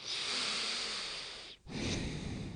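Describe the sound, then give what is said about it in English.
A deep breath: a long airy draw of breath, a brief silent pause, then a shorter, softer breathy release, heard alone without speech. “I give it a breath.”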